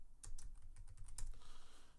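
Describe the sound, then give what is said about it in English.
Rapid typing on a computer keyboard gives many light, quick keystrokes in an uneven rhythm, quiet and alone, with no talking. “I can Google it quick.”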